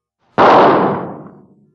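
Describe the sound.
A single gunshot, a sharp, loud crack that bursts out suddenly and then decays over about a second into a fading rumble, with nothing else heard.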